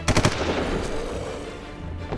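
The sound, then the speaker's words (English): Gunfire from rifles in a firefight among buildings, with shooters at windows: a quick cluster of sharp, loud cracks at the start, then a dense rumbling wash of noise that carries on to the end. “We kept firing, still unsure of what to do.”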